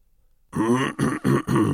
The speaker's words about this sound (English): He cleared his throat.